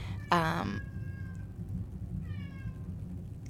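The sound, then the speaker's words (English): Domestic cats meow twice, the first meow louder and sharper, the second fainter and higher, with soft low background noise between them and no talking. “I can hear your cats in the background.”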